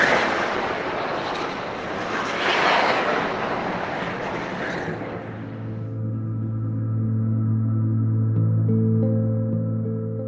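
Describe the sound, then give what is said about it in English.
Bombs exploding near an apartment in Gaza, with aircraft overhead: a loud, deep rumbling roar for about five seconds, then a steady low droning hum with layered tones that continues to the end. “every few hours, she can hear the sounds of bombs dropping and Israeli aircraft overhead. She sent me some of these recordings from her apartment.”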